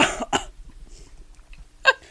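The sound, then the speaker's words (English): A few harsh coughs from someone struggling after tasting a bitter drink: two quick bursts close together, then a pause and one more sharp cough, with near silence between. “I was trying not to cough.”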